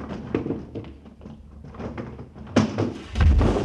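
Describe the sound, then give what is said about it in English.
A Murphy bed falling down: after some quieter knocks, a sudden loud clattering crash is followed by a heavy, low thud. “What fell? Oh, just that Murphy bed.”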